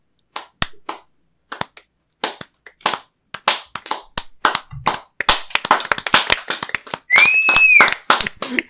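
Scattered hand claps as a crowd celebrates a new head of the marketing department, starting sparse with gaps, then growing denser and busier, with a brief whistle near the end.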